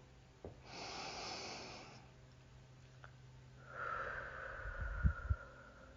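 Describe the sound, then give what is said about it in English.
A deep breath in, then a slow, drawn-out exhale during a guided relaxation breathing exercise. Both are soft and airy, the exhale carries a faint whistling tone and ends in a few low puffs, with no talk. “exhale out. And another deep breath.”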